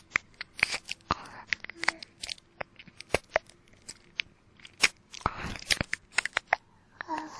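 Mouth sounds pretending to eat an ear: many sharp, irregular wet clicks and crunchy smacks, some loud and some faint, scattered throughout with brief quiet gaps between them.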